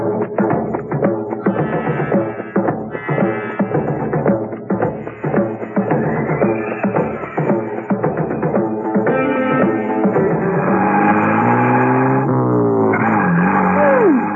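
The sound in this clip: A car being driven through the countryside, its engine running loud and continuous with steady revving that rises and falls in pitch as it goes.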